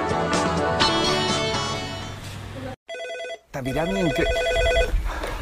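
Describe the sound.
A telephone rings as a call is placed to an office, a short burst of steady electronic ringing tones set between other bright tonal sounds.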